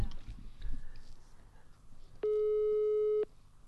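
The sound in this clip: A telephone call tone heard while redialing: a single steady, buzzy beep lasting about a second, sounding after a stretch of faint low background noise.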